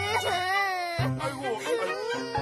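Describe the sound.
A child crying in drawn-out, wavering wails with strong harmonics, loud and continuous throughout, while being told to stop crying.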